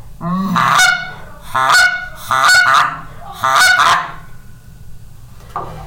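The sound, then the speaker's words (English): Loud, nasal honks from a Buck Gardner long reed goose call being blown. Four drawn-out calls come at a fairly even pace with short gaps between them, and one brief, much fainter note follows at the end. “And then I have I think Buck Gardner long reed goose call, and it sounds like this.”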